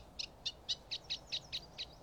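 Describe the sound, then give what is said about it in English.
Reed warbler song comes as a regular series of short, high, chirpy notes repeated at an even pace. The notes are faint over a low background hiss. “The Sunday morning piece is full of reed warbler, the rhythms and variations bouncing along merrily”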